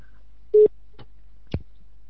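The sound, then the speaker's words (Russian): A single short, loud telephone tone beeps once during a phone call, followed by a couple of faint clicks, with no voices. “Набираю я, набираю.”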